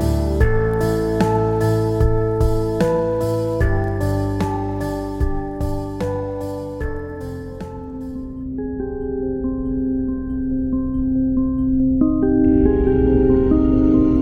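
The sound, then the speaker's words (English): Instrumental music piece composed for The Orphans: layered pitched notes strike in a steady rhythm over low sustained tones, then give way to longer held chords with a repeating higher note, playing alone throughout. “What you're hearing now is one of the pieces James composed for The Orphans.”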